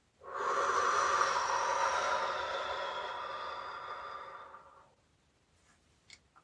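A single long, soft exhale during a guided breathing and visualization exercise, a steady breathy hiss lasting about four seconds before tapering into silence, with a couple of faint clicks afterward.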